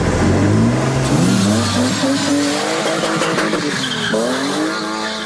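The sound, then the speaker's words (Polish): A car burnout: the engine revs hard with the brake held while the clutch is released, spinning the tires. Loud, continuous revving climbs and falls in pitch over a steady screech of tire squeal and skidding. “Teraz, trzymając wciśnięty hamulec, dodajemy gazu i puszczamy sprzęgło.”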